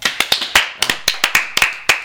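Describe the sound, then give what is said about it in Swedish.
Scattered hand clapping from a small audience voting for Lennon: a quick, uneven run of many sharp claps, fairly loud and heard alone without talk. “Alla som gillar Lennon, klappa nu.”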